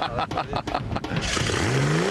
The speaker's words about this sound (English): is having problems getting the squadron's V6 engine revving. I've got no fuel in here whatsoever.